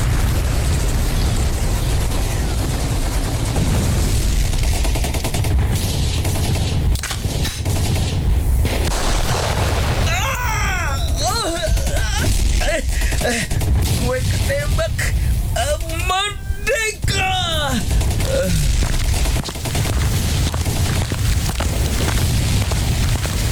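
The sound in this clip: Gunfire fired at extremists, sharp shots and booms cutting through a loud, constant roar, with voices shouting in between.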